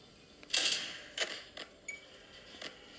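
Creaking, clicking winding of a music box in a horror video game: a few short mechanical bursts, the first longest and loudest, then smaller clicks spaced out. Faint overall, with no talk.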